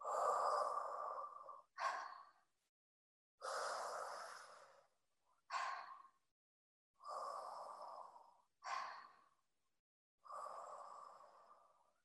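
Slow, deep breaths during a guided relaxation breathing exercise. Long, airy inhales alternate with shorter, sharper exhales, repeating several times. The breathing is soft, with no talking.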